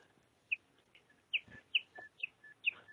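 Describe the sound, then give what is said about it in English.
A bird chirps in several short, sharp, high notes, faint and irregularly spaced, with softer calls scattered between them. “You are hearing the bird.”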